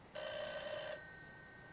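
A telephone ringing, with one bright electronic ring burst lasting under a second that starts sharply and then cuts off, leaving a faint hum behind it.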